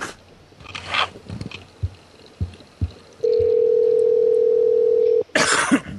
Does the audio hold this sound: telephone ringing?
yes

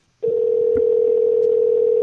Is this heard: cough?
no

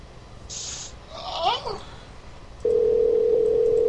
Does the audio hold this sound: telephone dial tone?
yes

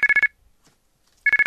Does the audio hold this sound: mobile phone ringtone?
yes

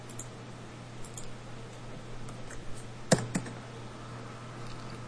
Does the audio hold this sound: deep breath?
no

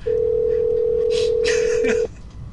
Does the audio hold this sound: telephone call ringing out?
yes

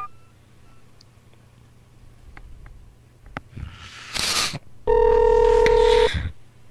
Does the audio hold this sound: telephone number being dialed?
yes

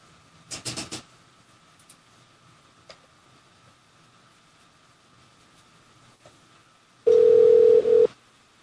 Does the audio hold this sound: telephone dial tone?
yes

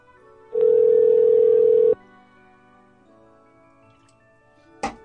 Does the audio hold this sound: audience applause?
no

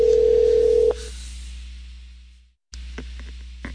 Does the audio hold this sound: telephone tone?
yes

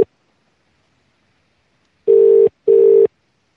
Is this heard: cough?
no

